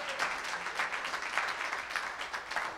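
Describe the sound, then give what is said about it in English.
A church audience claps their hands in praise, producing a soft, dense, continuous patter of many hands that stays fairly even throughout. “One more time, let's just give the Lord a hand clap of praise.”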